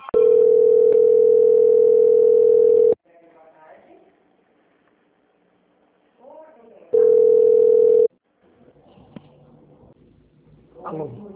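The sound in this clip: A telephone call-transfer tone plays while the caller waits on the line: a long, loud, steady beep lasting about three seconds. Quiet, indistinct line sounds follow, then a second, shorter beep, then more soft sounds.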